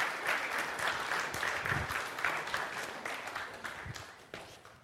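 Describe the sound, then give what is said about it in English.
An audience applauds to welcome a woman forward to speak: dense, brisk clapping that starts full and slowly thins and fades toward the end. “So let's give Marie a big hand. Welcome her to come forward.”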